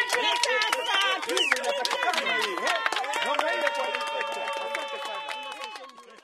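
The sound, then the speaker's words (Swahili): A crowd of people with disabilities cheers and ululates with joy at Maganye market. High trilling voices overlap densely and stay loud and busy throughout. “Kwa muda soko la Maganye lilijawa na sauti za furaha, shangwe na vigelegele za walemavu walioungana kuwa pamoja na tayari kuyakabili matatizo yaliyo mbele yao.”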